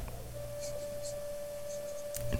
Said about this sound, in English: Was this Fallout 1, 2, 3, New Vegas, 4, or 76? You're going to write the answer down.